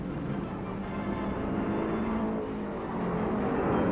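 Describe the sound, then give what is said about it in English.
A race car roars down the straight in pursuit of the race leader, its engine a loud, continuous, dense drone held at a steady level throughout, with no voices. “With one-third of the race run, Eddie Sachs guns down the chute in pursuit of the leader.”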